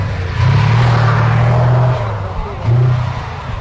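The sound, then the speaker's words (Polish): A tracked, demilitarised museum military vehicle runs its unmuffled engine: a loud, low, rumbling roar that surges twice over a constant harsh mechanical noise. “Jazdy gąsienicą nie można porównać z pojazdem kołowym. To jest zupełnie inna jazda, zupełnie inna mobilność. czuć potęgę mocy silnika, ale przede wszystkim pancerza.”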